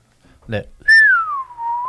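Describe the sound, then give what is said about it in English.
Slide whistle, a single bright whistled note that glides downward in pitch and then levels off, following a short thump. “That would be a slide whistle. Slide whistle.”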